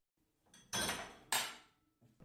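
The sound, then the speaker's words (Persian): Clatter and rush of a size 20 pot being set on a gas stove and boiling water poured into it: two loud, broad, noisy bursts with sharp starts, then a faint knock at the end. “خب من یه قابلمه سایز 20 رو روی گاز میذارم و داخلش رو آب جوش میریزم.”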